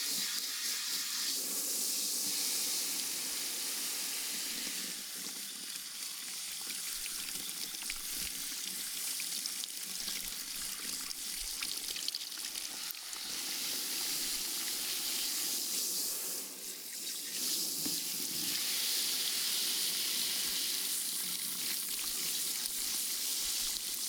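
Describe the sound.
Water runs without a break to rinse hair, a steady, even hiss and splash that lasts a long while with small changes in texture and no talk.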